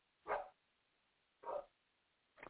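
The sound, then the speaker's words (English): A dog barks three times in the background, two full barks spaced about a second apart and a shorter third one, each faint against an otherwise quiet stretch. “You hear a dog in the background, that's Spaz. I got two dogs here and a pig.”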